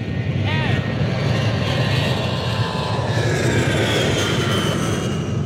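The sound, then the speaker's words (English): Aircraft engine droning steadily as an airplane taxis down the runway, a loud, even roar throughout with no clear rise or fall. “We're already taxiing down the runway.”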